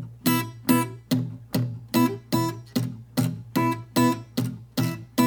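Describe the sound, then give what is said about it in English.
Acoustic guitar played with a punchy fingerpicked pinch technique and syncopated rhythm: many crisp plucked notes and pinched chords over a steady thumbed bass, bright and clear with sharp attacks and short decays, without voices. “I would move on to a more punchy pinch that kind of adds some syncopation.”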